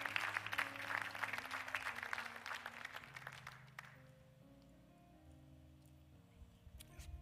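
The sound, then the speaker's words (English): A church audience applauds during a Sunday morning service. Dense, steady clapping lasts about four seconds and then fades, while sustained low organ-like chords continue underneath and afterward. “I want you to give yourselves a hand.”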